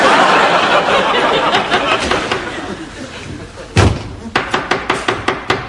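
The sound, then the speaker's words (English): Knocking at a door: one heavy thud, then a quick run of sharp, loud raps near the end, following a stretch of noisy, busy background. “Is that the door?”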